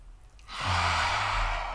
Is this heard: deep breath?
yes

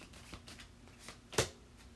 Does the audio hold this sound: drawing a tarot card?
yes

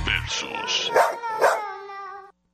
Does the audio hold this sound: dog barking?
yes

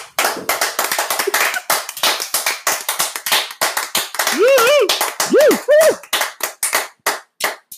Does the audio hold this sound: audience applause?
yes

